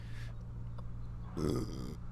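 A single low, rumbling burp lasting about half a second, heard during casual chat over eating chips, with a steady low hum underneath.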